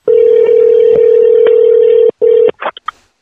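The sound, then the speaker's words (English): A telephone dial tone sounds as a call is placed: a loud, steady tone with a brief gap, then a few short dialing beeps at the end. “Let me call you on the phone, okay. And then we'll get a little bit better sound, I think.”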